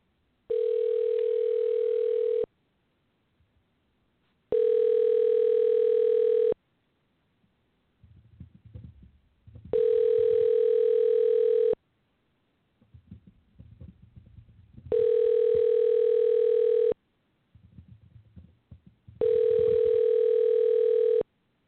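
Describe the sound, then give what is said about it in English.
Ringback tone while a phone number is dialed: five long, steady, buzzing tone bursts of equal pitch in an even rhythm, separated by pauses filled with faint low rumbling. “Let's try one more time dialing the number, and we'll see if we can reach him.”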